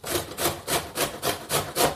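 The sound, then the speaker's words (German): Rhythmic rasping of something grated by hand into a plastic storage container: seven even back-and-forth strokes, scratchy and steady, with no talk. “Und äh, während des Reibens würde ich sagen, ich schalte euch mal ab, denn was wollt ihr mir beim Reiben zuhören? Also, es würde sich so anhören.”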